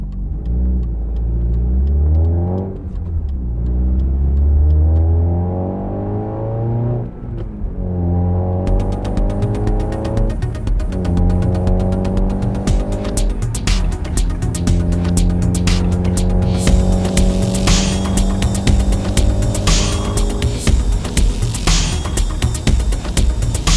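A car pulls away and accelerates. The engine note climbs in pitch, drops at several gear shifts and climbs again, then settles into a loud, steady drive with road noise.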